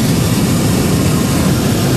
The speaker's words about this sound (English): There's nothing but this propane burner above us. Correct. That just allows you to go up and down.